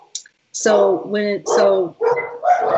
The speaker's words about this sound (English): sorry about my dogs going off. The UPS man is out there or something.